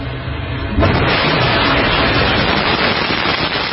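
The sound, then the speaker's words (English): A Northrop Grumman Antares rocket lifts off from NASA's Wallops Flight Facility with a supply spacecraft bound for the space station. Its steady roar swells sharply about a second in and then holds as a loud, unbroken rumble, with no voices. “A Northrop Grumman Antares rocket blasted off from NASA's Wallops flight facility last night.”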